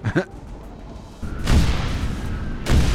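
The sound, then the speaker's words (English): Gunfire in a video game during a fight against multiple incoming craft: a couple of sharp pops at the start, then heavy, rumbling bursts of shooting fill the second half in sustained waves. “You're shooting at me. I'm trying to do a story.”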